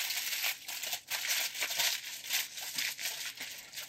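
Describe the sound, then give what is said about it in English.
Aluminium foil crinkles and rustles as it is wrapped tightly around bread filled with butter, poppy seed and mushroom mixture, in dense bursts of crackling with short pauses. “And so we are gonna go ahead and tightly seal the bread up in foil.”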